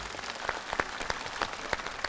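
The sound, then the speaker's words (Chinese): Audience applause follows a dance performance on stage: a steady patter of many hands clapping, with sharper individual claps standing out, sustained at a moderate level throughout. “我们掌声谢谢清新的演出， 谢谢老师们。”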